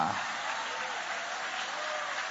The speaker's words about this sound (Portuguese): podem aplaudir a Deus com alegria